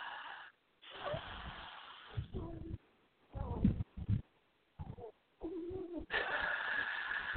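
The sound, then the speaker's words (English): A slow cleansing breath taken during a spiritual reading session comes in several breathy, slightly wheezy bursts, separated by short silences and soft throughout. “And he says that he's going to just help with a cleansing breath.”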